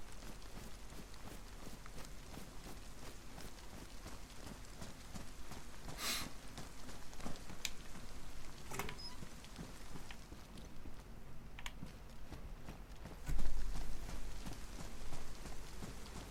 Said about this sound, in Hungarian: Na, elkezdett esni az eső.